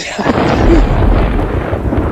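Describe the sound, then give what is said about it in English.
Thunder rumbles during a nighttime storm. It is a loud, continuous low roar that swells slightly and holds steady for about two seconds, with no voices. “It sure is stormy tonight.”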